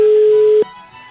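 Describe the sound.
A telephone line tone sounds for a prank call: one steady mid-pitched hum holds for about half a second, then cuts off abruptly and leaves only faint hiss.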